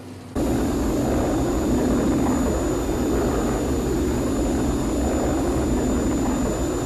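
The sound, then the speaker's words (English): Thunderbird 1, flying at high speed, makes a steady jet-like roar as it approaches London Airport. The roar starts abruptly after a short silence and holds at a constant loudness with a thin high whine on top. “London Tower from Thunderbird 1, approaching London Airport, height 2,500 feet. Airspeed 7.5 thousand miles per hour. We'll be touching down in 2 minutes.”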